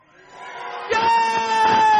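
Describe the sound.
A studio audience cheering during a reaction segment: crowd noise swells, then breaks into loud whoops and shouts that carry on to the end.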